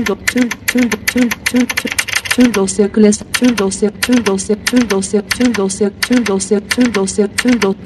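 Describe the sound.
Down-arrow key presses on a computer keyboard, with many quick clicks, under a fast synthetic screen-reader voice reading out Turkish file and folder entries.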